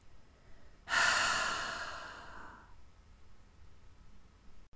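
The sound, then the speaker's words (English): A single slow exhalation through the mouth or nose, a soft breathy rush that starts abruptly, then gradually tapers and fades to near silence. “Now breathe out slowly through your mouth or your nose if that feels more natural.”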